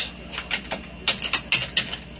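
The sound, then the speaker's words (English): Computer keyboard keys tapped while entering system details, a quick, uneven series of sharp plastic clicks with varying loudness and no talk over them. “Typed that in. I'm going to press tab.”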